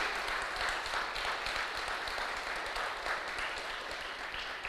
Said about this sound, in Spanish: Dile un fuerte aplauso al que vive.